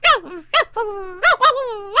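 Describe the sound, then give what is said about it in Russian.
A ginger puppy barking shrilly and angrily: a rapid string of high-pitched yaps mixed with drawn-out whining yelps that rise and fall, loud and alone. “Щенок очень рассердился и залился визгливым лаем.”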